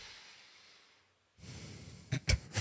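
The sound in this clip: A voice imitates calm breathing during sleep: a soft, airy breath sound enters partway through, followed by a few short, louder snorting puffs near the end.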